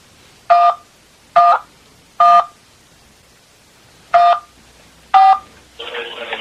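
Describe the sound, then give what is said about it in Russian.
Telephone keypad tones play as a call is transferred to an automated system: five evenly spaced dual-tone beeps, followed by a steady buzzing tone at the end. “Готовы, я могу вас переводить в роботизированную систему? Да, конечно. Будьте внимательны, перевожу вас.”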